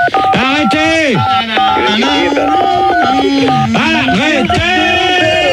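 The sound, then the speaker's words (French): Telephone keypad dialing tones are played as a melody on a phone, short steady beeps sounding under loud talk and exclamations from several people. “Les auditeurs, ils ont des téléphones. Là, ils ont qu'à essayer de nous faire un morceau avec leur téléphone.”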